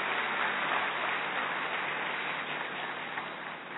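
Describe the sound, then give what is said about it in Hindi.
Applause welcomes a guest speaker to a gathering. Dense, continuous clapping holds steady and softens slightly toward the end. “हम जोरदार करताल ध्वनि से उनका स्वागत करते हैं।”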